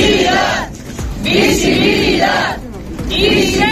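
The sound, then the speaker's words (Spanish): A crowd of residents protests outside the Cortes in Valladolid over the refusal to light the facade in LGTBI flag colours, shouting and chanting in loud repeated bursts with short dips between them. “Este es el sonido de anoche en Valladolid, la protesta de los vecinos ante las Cortes después de que el presidente de la Cámara, que es de Vox, se haya negado a iluminar la fachada con los colores de la bandera LGTBI”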